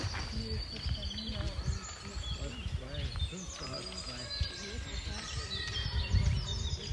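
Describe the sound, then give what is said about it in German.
Birds chirp and twitter outdoors during a day of hiking, many quick high calls scattered over a constant background, with voices murmuring underneath. “jetzt nehmen wir ein bisschen Vogelgezwitscher für euch auf. Und das klingt so.”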